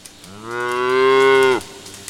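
A cow lets out one long, deep moo at an agricultural school farm in Georgia. It is loud and rich in harmonics, holds a steady pitch for over a second, then cuts off abruptly.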